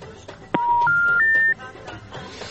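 Telephone dialing tones sound as a caller connects to a radio phone-in: three steady electronic beeps follow one another without gaps, each pitched higher than the last, with quieter sounds before and after.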